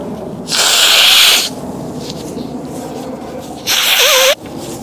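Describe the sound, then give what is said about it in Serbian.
Two loud, breathy sniffs pulled sharply into a microphone, each lasting under a second and separated by a short pause of quiet. “Još šmrče u kameru, u zvuku, ovo.”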